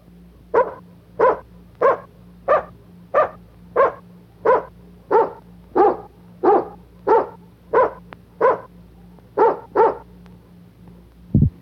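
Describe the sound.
A dog barks in a long, evenly spaced series of many sharp, loud barks, each clipped and similar in pitch, with a faint low hum underneath.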